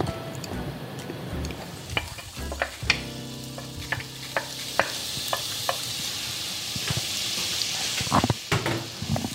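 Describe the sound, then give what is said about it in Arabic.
Onions frying in olive oil while being stirred: a steady bright sizzle runs throughout, broken by many sharp clicks and scrapes of a utensil moving through the pan. “انا كده نزلت البصل بتاعي في زيت الزيتون وهقلبه لحد ما يبتدي ياخد اللون البني معايا”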